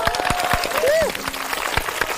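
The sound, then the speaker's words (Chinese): Applause greets a campus band from Hebei University of Economics and Business, with scattered claps under a speaking voice and crowd sound. “掌声来也。”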